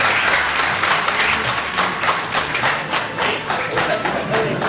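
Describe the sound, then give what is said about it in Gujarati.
Clapping from a gathered group fills the whole stretch, a dense, even patter of many hands that holds steady at a fairly loud level without pauses. “આ તાળીઓના અવાજ સાંભળીને એવું નથી વિચારવા માંડે ને કે અમે કોઈ ખેડૂત સભામાં બેઠા છીએ.”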